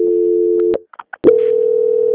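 A steady, mid-pitched telephone tone plays during a call transfer. It breaks off briefly for a few clicks and short blips, then resumes at full loudness.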